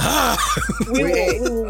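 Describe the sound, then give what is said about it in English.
A person vocally imitates a horse neighing: a loud, wavering whinny with rapid pitch wobbles and several sweeping drops, lasting about a second and a half. “We were still making fun of horses.”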